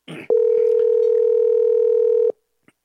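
Telephone ringback tone for an unanswered call: a single steady, loud electronic tone holding for about two seconds, preceded by a short noisy burst and followed by near silence with a faint click.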